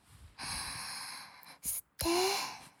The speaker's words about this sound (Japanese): だったら頑張って呼吸しないとね。吸って吐いて